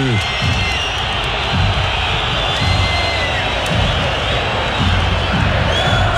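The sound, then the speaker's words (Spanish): A stadium crowd of blue-clad Universidad de Chile fans fills a football match with a dense, steady roar and scattered louder swells, while a voice talks over the din. “y ahí el lateral, escuchen al público azul.”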